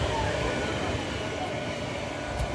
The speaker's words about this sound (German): Oh ja, einer von den ganz großen Lastkränen bewegt sich hier. Von der, von der Werft.